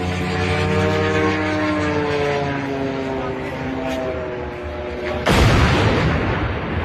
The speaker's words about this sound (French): ça, c'est le son d'un drone qui percute une grue de chantier, vous savez, une immense grue de chantier dans la banlieue de Moscou, non loin de la raffinerie de Kapotnia